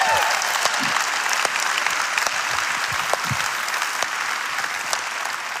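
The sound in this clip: A church audience applauds to welcome a new campus, a dense, steady wash of clapping from many hands that stays loud and even from start to finish.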